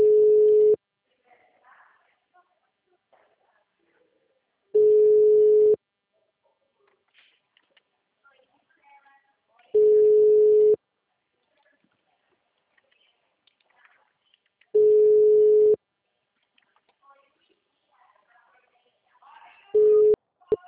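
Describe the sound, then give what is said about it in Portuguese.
Telephone call tones sound while a client is being called: loud, steady one-second tones repeat at even intervals of about five seconds. Four full tones are heard, followed by the start of a fifth, with faint scattered sounds in between. “calma aí, ainda não sei, tô ligando para um cliente, calma aí.”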